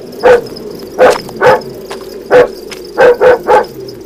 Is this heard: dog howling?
yes

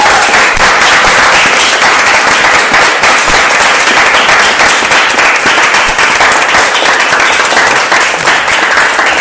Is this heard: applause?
yes

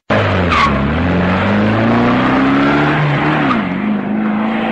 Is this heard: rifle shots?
no

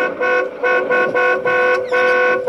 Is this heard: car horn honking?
yes

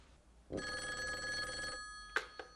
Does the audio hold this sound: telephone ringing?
yes

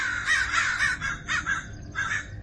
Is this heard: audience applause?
no

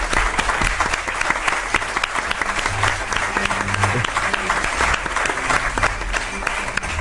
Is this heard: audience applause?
yes

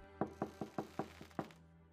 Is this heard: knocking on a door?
yes

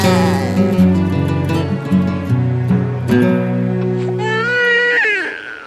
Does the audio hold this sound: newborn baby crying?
yes

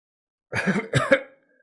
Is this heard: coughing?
yes

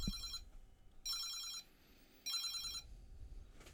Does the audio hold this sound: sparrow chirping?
no

